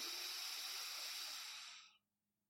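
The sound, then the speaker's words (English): A soft, airy inhale through the left nostril during a Kundalini breathing exercise. It is one long, steady hiss of breath that tails off and stops near the end, leaving near silence. “And I'm only going to breathe in through my left nostril.”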